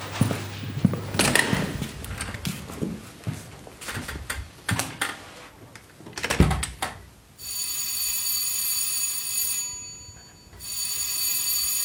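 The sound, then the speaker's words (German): Third bell signal before a theatre performance: a loud, steady electric ringing sustains for a couple of seconds, stops briefly, then resumes. It follows a stretch of irregular clicks, taps and creaks, with no talk. “War das schon das letzte Zeichen? Das war das dritte Klingelzeichen.”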